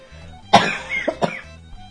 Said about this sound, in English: you'll have to excuse the occasional coughing. I hope it won't be too frequent.